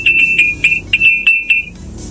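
Drinking glasses clinking in the morning, a quick, even series of bright, high-pitched pings that ring for about one and a half seconds before fading, with no voices.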